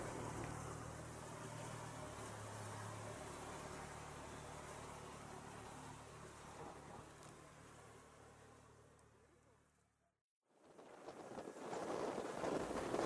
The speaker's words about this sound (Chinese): 看完房子后，师傅就开始加速了。海风吹在身上还挺冷的。